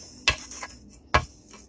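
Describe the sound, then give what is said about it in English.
A mixing bowl of powdered sugar and butter mixture is scraped down, with two sharp knocks and soft, hissy scrapes between them. “I've got all of my powdered sugar finally mixed in, and I'm going to scrape down the bowl before I start to add my mascarpone cheese.”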